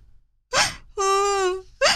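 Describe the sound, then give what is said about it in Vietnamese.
A young girl bursts into sobbing: a sharp gasping sob, then a long, wavering, high-pitched wail, then another abrupt sob. “Cô bé òa lên khóc nức nở.”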